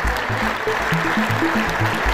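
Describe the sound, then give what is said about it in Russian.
Applause from members of the US Congress during Ukrainian President Zelensky's address, a dense, sustained clapping patter at steady loudness with no talk. “Его выступление в парламенте несколько раз прерывали аплодисменты конгрессменов.”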